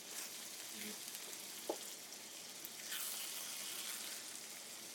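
Chorizo sizzling and rendering its fat in a pan with no added oil. A soft, steady frying hiss runs throughout, with faint crackles and one brief tick near the middle.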